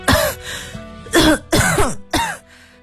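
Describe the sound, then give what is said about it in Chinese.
Four harsh, forceful coughs from a person coughing desperately in a tense moment, each a loud burst separated by short pauses, with the last few closer together. “孙刘花拼命咳嗽着，既是给阁楼上的苏峰塔发信号，又是缓解自己的恐慌。”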